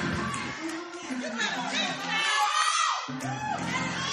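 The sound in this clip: An audience that is mostly women cheers and shouts in response to a woman preaching, a busy swell of whoops and chatter with a speaking voice rising over it.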